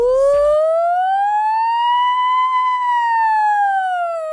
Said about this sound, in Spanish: Esa sirena me parece.